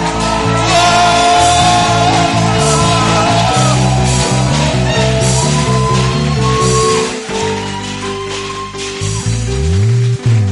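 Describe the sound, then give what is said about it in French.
A church audience shouting and cheering in praise: a loud, continuous mass of voices over music, sustained almost throughout with a brief dip near the end. “Est-ce que quelqu'un peut acclamer le Seigneur? Acclame le Seigneur pour ses cris de joie.”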